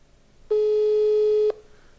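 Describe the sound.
A telephone busy tone on an unanswered call: one steady, mid-pitched beep lasting about a second, alone over a quiet background with no talk.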